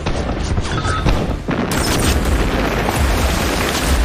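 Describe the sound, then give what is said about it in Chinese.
Gunfire across a river in battle: a dense, continuous roar of overlapping shots and blasts, loud throughout, with one brief lull near the middle. “北岸的敌军发现状况后立刻向河面射击，南岸的红军迅速开火反击”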